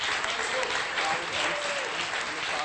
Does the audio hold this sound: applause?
yes